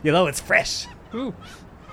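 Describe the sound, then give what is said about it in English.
Chickens squawking at a food truck that slaughters its birds on site. A few harsh, wavering cries rise and fall in pitch and sound oddly like human screams. “Oh, that's what that sound is. Yes, I do hear all of that squawking and surprisingly sounds like human screams.”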